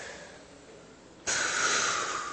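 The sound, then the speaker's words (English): A group of people take a deep breath together: a soft airy background gives way to an abrupt, loud rush of breath that holds steady to the end. “And now everyone together, let's just take a deep cleansing breath.”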